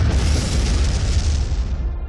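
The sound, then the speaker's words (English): Magnetic sea mine exploding against a warship's hull: a dense, deep roar with heavy low rumble and broad hiss that holds steady, then slowly thins out. “The explosion tore open the ship's hull and brought it to the brink of complete destruction.”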